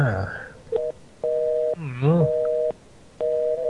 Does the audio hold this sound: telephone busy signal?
yes